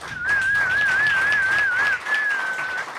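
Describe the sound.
An audience cheers while a loud, wavering whistle rides over the broad crowd noise, breaks off briefly, then returns for a second sustained whistle.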